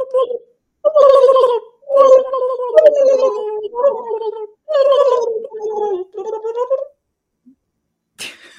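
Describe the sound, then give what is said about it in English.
People vocally imitate a turkey gobbling, producing several loud, warbling, throaty bursts in quick succession with brief pauses between them, then a short quiet stretch. “What if we gobble? Can we gobble?”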